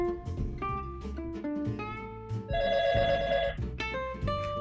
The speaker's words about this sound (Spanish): ¡Otra llamada!